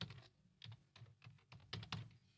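Typing on a computer keyboard as a band name is entered on a website: many quick, faint key clicks in short uneven bursts, with brief pauses between groups of keystrokes.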